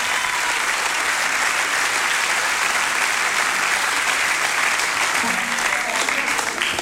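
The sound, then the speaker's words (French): Audience applause fills the whole stretch with dense, continuous clapping that stays evenly loud. “Je vous remercie d'applaudir ce rôle de composition.”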